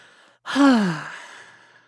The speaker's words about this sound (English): Just let it out. An audible exhale is really good for your sympathetic nervous system.